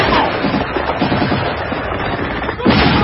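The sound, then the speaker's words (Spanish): Dynamite charge exploding and blowing up a building held by Russian troops in wartime, heard as a loud, sustained crackling roar with a fresh burst near the end. “El edificio de los rusos explota.”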